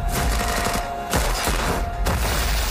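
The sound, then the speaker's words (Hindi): Gunfire from an action film teaser's gunfight: a dense, loud, continuous barrage of rapid shots, with two brief dips before the firing surges again. “जिसकी झलक teaser में इमरान की gun fight और close combat के रूप में दिखाई दे रही है।”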